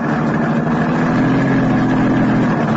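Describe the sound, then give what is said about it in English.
A car engine runs while the car drives out to the charred ruins of a paint factory. The engine gives a loud, even, low drone that holds steady throughout, with no voices. “I drove out to the charred ruins that had once been the Chantilly Murdoch paint factory”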